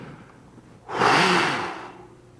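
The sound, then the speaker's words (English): A voice imitates God breathing life into Adam with one long, forceful, breathy exhalation that swells suddenly, holds for about a second and then fades away. “breathed into him the breath of life”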